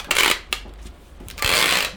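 Masking tape being pulled and pressed down to seal a full cardboard box at a food pantry in Tokyo: two loud, rasping bursts of stretching tape separated by a quieter pause.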